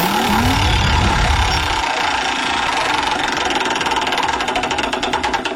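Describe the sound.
A prize wheel in a radio game segment spins with a fast, continuous run of mechanical clicks, steady and fairly loud throughout.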